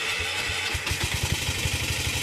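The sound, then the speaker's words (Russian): Motor rickshaw engine running again after a breakdown, on a trip through the Andes: a steady, rattling putter of rapid low pulses at an even rhythm, moderately loud throughout, with no voices. “Теперь же, когда моторикша снова работает, британцы планируют продолжить свое путешествие в Андах.”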